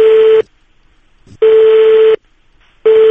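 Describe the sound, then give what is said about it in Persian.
Ringing tone of an outgoing telephone call: a loud, steady mid-pitched tone in three bursts separated by silent gaps, with no voices. “بریم سراغ این آقا و یه زنگی بهش بزنیم؟ بریم سریعتر زنگ بزن”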